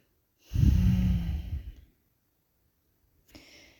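Slow, deep breathing: one long, audible exhale like a sigh lasting over a second, then after a pause a faint, short breath.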